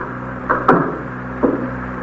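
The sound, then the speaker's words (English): A door shuts with one short, sharp thump, framed by a couple of softer clicks and knocks over a steady low hum. “Close the door”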